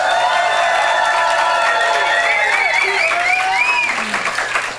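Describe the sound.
An audience at a campus radio network's annual general assembly in Grenoble applauds and cheers. Loud, sustained clapping runs throughout, with whoops and shouting voices, and eases slightly at the end.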